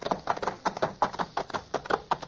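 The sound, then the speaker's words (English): Galloping hooves of runaway horses, a rapid, uneven stream of many thudding beats at a steady, fairly loud level. “Look, the horses are running wild.”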